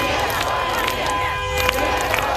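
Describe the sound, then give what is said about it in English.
Crowd noise from an anti-war protest in Moscow where demonstrators chant against the war: a dense, steady roar of many voices, loud throughout, with no single voice standing out. “Anti-war demonstrations staged in cities across Russia. In Moscow, the crowd chanted no to war.”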